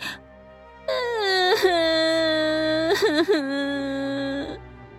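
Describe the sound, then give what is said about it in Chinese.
A man crouched on the floor cries in aggrieved, wavering wails, one long sustained voiced moan with a few catching sobs near the end, and no other voices. “他竟然气得往地上一蹲，很委屈的哭了起来。”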